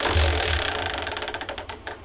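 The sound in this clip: A spun wheel, used to pick football teams, gives off a fast, loud rattling tick. The clicks grow sharper and more separated toward the end, with no voices.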